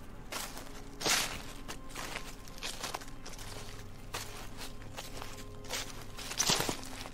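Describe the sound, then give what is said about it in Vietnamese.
Footsteps outside: a few soft, irregular steps with a louder thud near the start and another near the end, over a faint, steady hum. “tiếng bước chân ở bên ngoài vang lên, giống như là có ai đó đang từ từ đi vào đây tìm đến bà ta vậy.”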